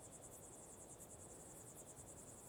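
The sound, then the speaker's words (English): Grasshoppers chirping at night in South Africa, a faint, steady, high-pitched pulsing that repeats rapidly and evenly over a soft background hiss. “Sitting here, hearing all the grasshoppers, the sissing of the snakes, looking at the big South African dark sky”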